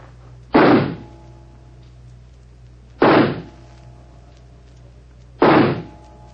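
Three loud, sharp pistol shots are fired at a target, evenly spaced about two and a half seconds apart. Each is a short bang with a quick decay over a faint, steady low hum.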